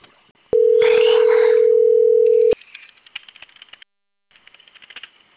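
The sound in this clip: A telephone dial tone follows a cut-off call: a steady mid-pitched tone holds for about two seconds, then gives way to a scatter of faint clicks and rattles.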